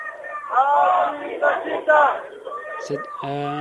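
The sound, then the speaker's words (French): Ambient crowd noise from a street demonstration of about 5000 people, with many voices shouting and chanting together at a moderate, uneven level. A sharp high sound and a sustained tone appear near the end. “on vous garde quelques secondes à l'antenne histoire d'avoir au moins le son d'ambiance de la manif”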